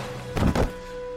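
A single pistol shot in a dramatized scene, heard as a short, dull, muffled thump with a broad low burst, then quiet hum.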